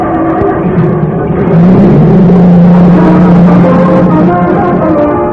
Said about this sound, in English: When you went out to your garage this morning and stepped on the starter of your car, did it sound something like this?